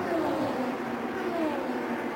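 A race car peels out of the pit box after a stop for four new tires and a wing adjustment. Its engine whine is steady and fairly loud, and the pitch slides as it moves away.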